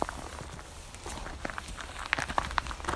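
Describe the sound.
Footsteps climb the original stairs at a fossil site, laid out in 1994. The steps are soft and irregular over a low background rumble, with a few brighter clicks and scuffs.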